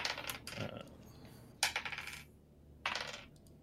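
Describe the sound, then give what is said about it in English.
A pile of dice, including ten-sided dice, clatters across a surface in a tabletop role-playing game: three separate bursts of bright, rattling tumbling, each fading out, fairly faint and with no voices. “rolling a lot of these dice, I can't find all my d10.”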